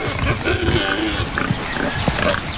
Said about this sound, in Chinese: 野猪在附近吃草，